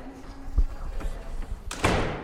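A door closing as a police chief leaves reporters' questions: a low thump and a few faint knocks, then a heavier, broad thud as the door shuts.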